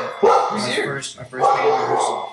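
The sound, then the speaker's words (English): A pet dog barking and yipping repeatedly while a band rehearses nearby, the barks mixed in with a person talking over them. “if anybody's wondering why my dog is barking, it's because I have a band.”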